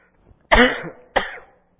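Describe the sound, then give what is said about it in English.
Two harsh coughs from a person at a microphone, alone without talk: the first loud and drawn out, the second shorter and slightly weaker after a brief pause. “I'm really sorry. Nothing worse than seeing me cough.”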